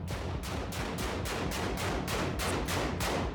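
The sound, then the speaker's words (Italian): Gunshots as youths fire at a door, a rapid, evenly spaced string of many sharp cracks that runs steadily through the whole clip. “Sparano contro una porta, ma la cosa più strana è che si stanno filmando tra di loro, cioè il complice che filma il ragazzino che spara”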